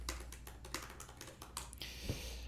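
Typing and clicking on a computer keyboard to open the IGN website: many quick, faint keystrokes in uneven bursts, ending in a brief cluster of taps.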